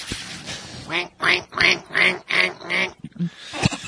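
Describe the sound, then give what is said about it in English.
Mallard ducks quacking as a group mobs a baby duck: a rapid run of loud, harsh, nasal quacks, then a few softer, scattered calls. “That was the sound of a little baby duck getting raped by a group of mallards.”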